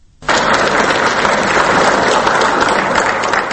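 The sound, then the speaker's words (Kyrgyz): Applause in the Kyrgyz parliament greets President Roza Otunbayeva. It bursts in abruptly after a brief quiet moment, then continues as a loud, steady, dense wash of clapping from many hands. “Кыргызстандын тарыхында биринчи жолу өз ыктыяры менен бийликти өткөрүп жаткан президент Роза Отунбаеваны парламентте мына ушундай кол чабуулар менен тосуп алышты.”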